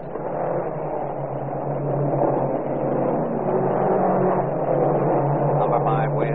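Racing cars speed around a track during a race, their engines blending into a steady, loud, continuous roar with a low hum running underneath throughout.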